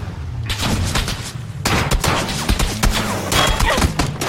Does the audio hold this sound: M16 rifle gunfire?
yes